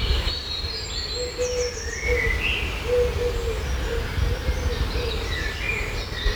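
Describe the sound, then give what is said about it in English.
Birds chirp and whistle in a studio garden at five in the morning. Scattered high calls rise over a constant, fairly quiet background rumble. “That's a lot of noise for just, well, birds.”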